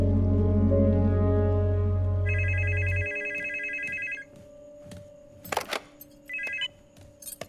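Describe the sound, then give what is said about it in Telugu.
A telephone rings in two electronic trilling bursts, a longer one and then a short one after a pause. A low steady drone plays at the start, and faint scattered clicks and clatter follow. “Phone ఇవ్వు. Phone? Phone ఎవరికి?”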